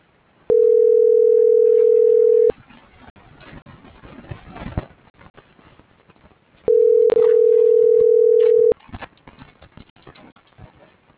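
Telephone ringback tone heard while a call is being dialed: two steady, loud, mid-pitched tones of about two seconds each, separated by a long pause filled with faint background noise.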